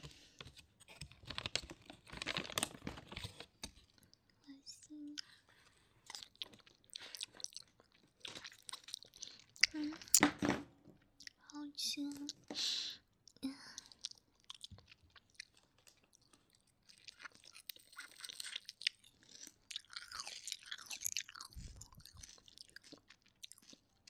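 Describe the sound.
Crunchy chewing of a crispy yellow croaker fish pastry: many quiet, irregular crisp bites and crackles spread throughout, with no talk.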